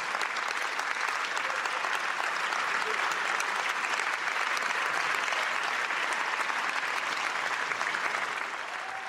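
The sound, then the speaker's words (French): Standing ovation applause from deputies in the French National Assembly, a dense, steady roar of many hands clapping that holds loud and even for the whole stretch before easing slightly at the very end. “standing ovation”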